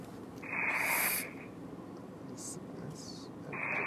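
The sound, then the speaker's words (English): A person breathing deeply in and out during a prayer session, a few long breathy, hissing breaths separated by quieter pauses. “Breathe in and out 5 times.”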